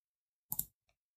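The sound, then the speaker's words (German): Mouse clicks while text is edited on a computer: two quick, sharp clicks close together, then a faint third tick a moment later, alone against silence. “ich habe geklickt und das war ein Fehler, jetzt ist der Text weg.”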